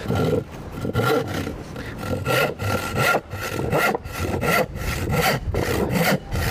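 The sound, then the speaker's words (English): Hand saw making a rip cut through a 3/4 inch MDF sheet, loud rasping back-and-forth strokes in a fast, steady rhythm that carry on throughout with no talk. “3/4 inch sheet of MDF. As we know, it's got a lot of glue and other various materials in. So I don't think this is going to go through as quick as we know, but let's see how it does go through. So the first rip.”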